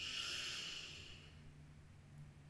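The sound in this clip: Soft inhale through the nose during a guided breathing meditation: a faint, airy hiss lasting about a second that fades into quiet stillness.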